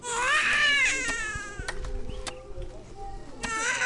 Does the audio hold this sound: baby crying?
yes